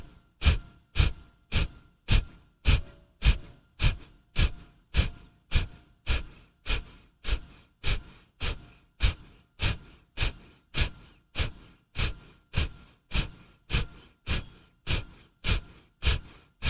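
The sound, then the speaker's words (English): Forceful exhales in pranayama breathing: a long, even train of sharp, breathy bursts repeats at about two per second without pause, each puff punchy and quickly fading. “Breathe in through your nose again. And without pausing, 30 forceful exhales.”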